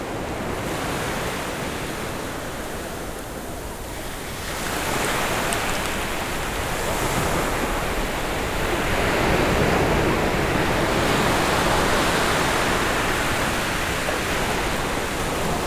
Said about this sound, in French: sentez-vous déjà des embruns marins passer dans le fluide du vent.